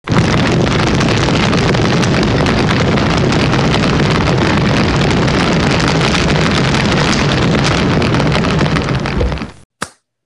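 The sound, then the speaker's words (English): A roaring fire sound effect, a loud dense rumble held steadily for about nine seconds before cutting off abruptly, followed by one short pop. “Now it's time for everybody's favorite / least favorite part of the podcast. It's time for Hot Take Corner. Let's cue the fire.”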